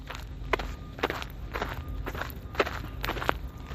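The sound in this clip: Footsteps walk outdoors in a steady, even rhythm, with many soft, dull steps in a row. They sound faint and carry no talk over them.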